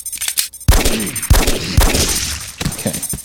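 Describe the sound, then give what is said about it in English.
Glock pistol gunfire in a video game: several sharp, loud shots in an irregular rhythm, with reverberant tails between them. “Alright, I'm gonna go back to the Glock. I'm really showing off with this gun.”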